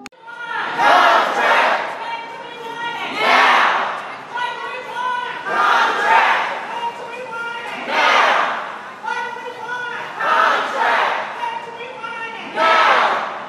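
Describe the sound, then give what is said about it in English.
Union workers in red shirts from the CWA demonstrating for fair pay at Dallas-Fort Worth Airport Terminal D chant loudly as a crowd, repeating the same shouted phrase in regular bursts roughly every two seconds. “You are at the Dallas-Fort Worth Airport, Terminal D, with a bunch of people wearing red shirts, and we are demonstrating for fair pay.”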